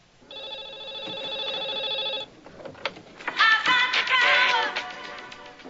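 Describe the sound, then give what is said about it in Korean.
A telephone ring tone heard after a call is placed: one steady, pitched electronic ring lasting about two seconds. Busier mixed sounds follow after a short pause. “잭은 우선 리디아의 전화번호를 알아내서 전화를 겁니다.”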